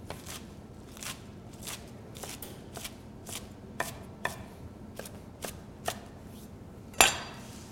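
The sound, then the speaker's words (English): A knife roughly chops fresh spinach for a three-bean minestrone soup, giving many quiet, sharp cuts in an uneven rhythm, with one louder knock near the end. “So basically I just want to do a rough chop on this.”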